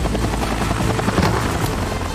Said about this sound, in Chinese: 他驾驶着直升机移到了最后一瓶的位置